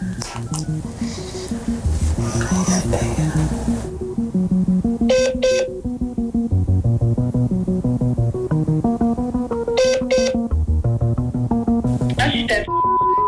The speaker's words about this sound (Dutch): Komt-ie. Eerst even bellen.